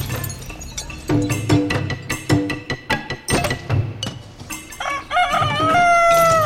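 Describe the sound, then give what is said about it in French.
Chickens in a henhouse at the Galy farm, many loud clucks and squawks in an uneven rhythm, ending with a rooster crowing in a long drawn-out call. “À la ferme de Galy, Joël Revelli. Vous avez devant vous donc le poulailler et je vous ai amené trois œufs.”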